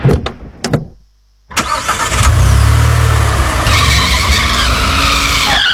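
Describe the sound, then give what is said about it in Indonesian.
A car skids on a slippery, wet road in the dark. A few sharp knocks and a short silence come first, then a loud, sustained tire screech and a roaring engine. “Ih, hampir aja kita nabrak pembatas jalan tuh. Ya gimana, ini jalannya licin loh.”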